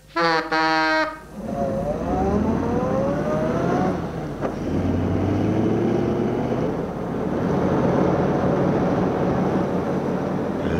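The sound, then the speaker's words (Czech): An old car engine starts with a rough, pulsing burst, then revs and drives off. Its tone climbs repeatedly as it accelerates through the gears and settles into a loud, steady running drone. “teď nastartuj a jede se k slečně Mařence”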